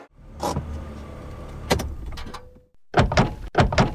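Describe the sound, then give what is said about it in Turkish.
A door being tried but not opening, with a few sharp clunks and rattles of the handle and latch separated by short pauses and a low hum in between. “Baba, kapıyı açamıyorum. Tekrar dene.”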